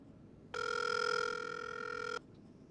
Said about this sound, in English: It's dialing right now.